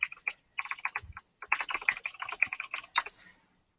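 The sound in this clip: Rapid typing on a computer keyboard: many quick, crisp key clicks in an uneven rhythm, broken by one brief pause.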